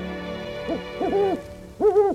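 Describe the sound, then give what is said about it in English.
A great horned owl hooting: a few low, resonant hoots in a short series, the later ones longer and louder, heard alone with no voices. “Thank you so much, great horned owl.”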